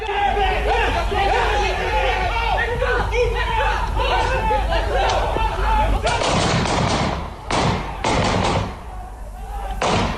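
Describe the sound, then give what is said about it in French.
Police open fire on an armed attacker in a residential alley, captured on a neighbour's video. People talk over steady background noise before a rapid series of sharp, loud gunshot cracks rings out near the end. “L'assaillant refuse de lâcher son arme, les policiers tirent, comme on peut l'entendre sur cette vidéo filmée par un voisin.”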